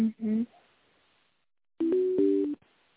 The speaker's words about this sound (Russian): А, минуточку, я вас соединю, минуту.